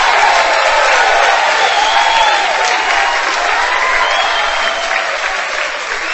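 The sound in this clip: Loud, sustained applause with cheering and a few whoops welcomes new students at a campus gathering. The crowd noise stays dense and continuous and eases slightly toward the end.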